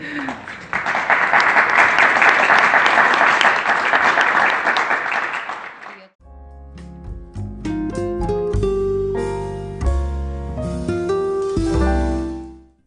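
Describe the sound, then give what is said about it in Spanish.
Audience applause at a literary talk event: dense, steady clapping for about six seconds that swells and then cuts off, after which music with clear sustained notes takes over. “un aplauso.”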